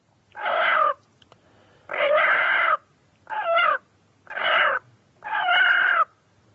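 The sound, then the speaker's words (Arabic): Chickens calling, five separate loud harsh calls of about a second each, evenly spaced with quiet gaps between them. “او صوت الدجاج ده بيسموه نقنقه.”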